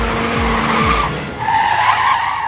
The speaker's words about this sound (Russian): Всю сцену Войден охватил взглядом за доли секунды, резко нажав на тормоз и рывком развернув руль. Машина с визгом закрутилась вокруг своей оси, озаряя шоссе всполохами горящей резины.